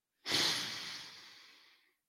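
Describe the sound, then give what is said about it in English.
A deep breath is let out as one long, breathy exhale that starts strongly and tapers off gradually toward silence, heard alone. “Just take this quick breath. I swear you'll feel just a little bit better. Yes. Let's take a deep breath then.”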